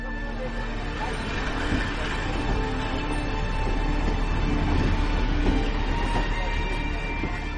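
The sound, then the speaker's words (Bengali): A train departing, heard as a continuous, dense rumble of rolling rail noise that holds steady and swells slightly in loudness midway. “Train ছেড়ে দিল।”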